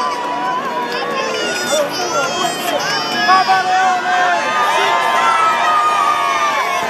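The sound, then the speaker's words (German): A crowd of the faithful on St. Peter's Square in Rome cheers as the pope drives through greeting them, with many overlapping shouts, calls and high voices in a continuous lively roar. “Wir hören hier weiter im Hintergrund noch den Jubel der Gläubigen, während der Papst gerade noch weiter auf dem Petersplatz in Rom fährt, die Gläubigen einzeln begrüßt.”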